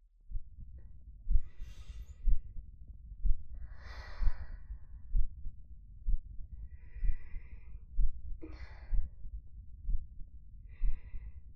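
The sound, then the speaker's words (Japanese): Heartbeat heard up close as soft, low, regular thumps recurring at a steady, slightly under one-per-second pace, with gentle breaths drifting over them at intervals. “私の心音聞こえるかな？”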